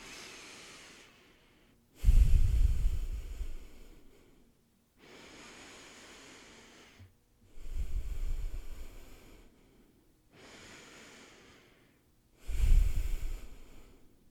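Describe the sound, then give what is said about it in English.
Three slow, deep breaths taken in and out through the nose, each a loud rushing inhale followed by a softer, drawn-out exhale, in an even, unhurried rhythm with no talking. “take three deep breaths in and out through the nose and out through the”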